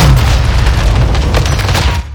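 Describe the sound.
A proximity mine explodes in a video game: a loud, deep booming blast with a heavy rumbling tail that stays strong for about two seconds before dropping off.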